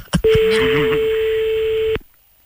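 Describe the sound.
A telephone ringback tone sounds while a call waits for an answer: one steady, clear, mid-pitched tone holding for nearly two seconds before stopping, with a voice briefly speaking over its first half.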